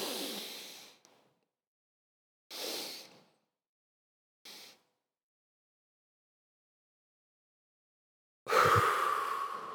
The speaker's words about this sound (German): Also einmal schön ausatmen. Jetzt einatmen.